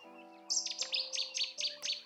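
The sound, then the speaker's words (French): A nightingale sings a quick series of sharp, high chirps in a lively, repeating rhythm over faint sustained tones in the background. “le lent silence qui avait redonné un peu de voix au rossignol”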